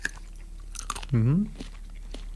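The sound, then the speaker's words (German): A small bite into a red chili pepper gives a brief crisp crunch, followed by a short hummed voice sound, then near silence. “Wir haben hier 3 rote Chilis und eine ganz große gelbe. Mhm. Ich will mal in so eine rote beißen. Reinbeißen? Oh, reinbeißen, ist wirklich eine rote? Ja, kein großen Biss, aber so einen kleinen.”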